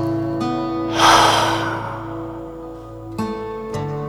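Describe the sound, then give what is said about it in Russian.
A deep breath is drawn in through the nose and let out through the mouth: one long, soft, airy rush that slowly fades over steady, sustained background music. “Вдыхая носом, сделай выдох через рот.”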